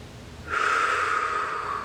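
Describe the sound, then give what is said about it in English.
A single deep breath during a guided self-love meditation: half a second of quiet, then a long, hissing intake of air that holds steady and breathy for over a second. “Deep breath.”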